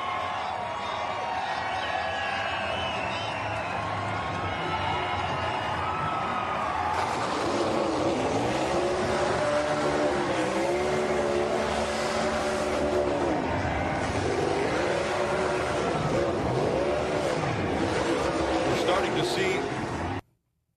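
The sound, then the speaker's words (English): A race car roars through a celebratory burnout after a race in Nashville, spinning its rear tires. A steady engine drone swells into a loud, harsh roar after several seconds, with wavering revs, under commentators talking throughout. “Chase Elliott is going to burn the rear tires off the machine”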